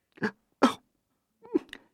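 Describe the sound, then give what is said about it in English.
A professor coughs in short, dry bursts: two close together, then, after a brief pause, two more, with no other sound between them. “He coughs and wipes his eyes.”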